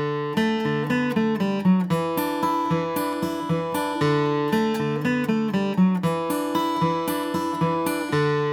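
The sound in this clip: An electric guitar plays a hybrid-picked roll, with a pick plus fingers plucking the B and high E strings for a banjo-like cross-picking effect. A rapid, even stream of bright plucked notes cycles through a repeating pattern, with no talking.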